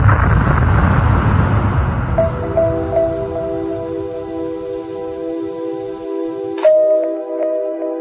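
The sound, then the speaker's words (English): Explosion of a space probe in the Martian atmosphere: a loud, broad roaring blast that thins out over about two seconds into a steady, layered tonal hum, with one more sharp burst near the end and no voices. “They never lined up, and the probe exploded in the Martian atmosphere.”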